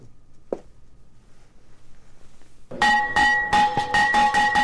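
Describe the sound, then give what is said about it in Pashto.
A school bell rung at a ceremony opening the new school year in Afghanistan's cold regions. After a quiet stretch with one faint click, a loud, bright run of rapid ringing strikes follows. “ولسمشر محمد اشرف غنی د شنبه په ورځ د ښوونځي د زنګ په کړنګولو سره د افغانستان په سړو سیمو کې د نوي تعلیمي کال پرانیسته وکړه”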